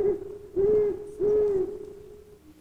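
An owl hoots in a few low, mellow, steady-pitched hoots, each held briefly in a slow, even rhythm, with the sound trailing off softly at the end.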